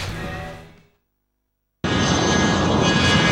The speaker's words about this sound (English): In a private jet